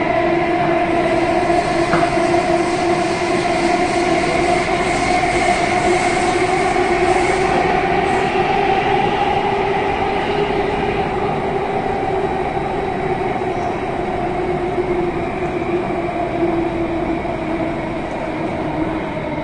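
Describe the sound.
Subway train at Mount Patton station gives off a steady, droning rumble with a sustained tonal whine. The sound holds evenly throughout, without voices.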